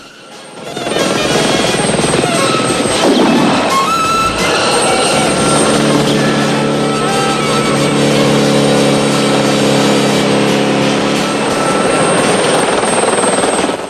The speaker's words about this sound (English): The helicopter circles around them and overtakes.